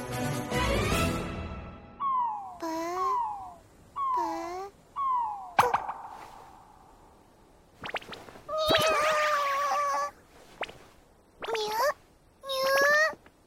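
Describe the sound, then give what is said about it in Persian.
Cat meows come in several separate calls, each high and bending with a wavering, whiny tone, set between stretches of talking. “میو. میو.”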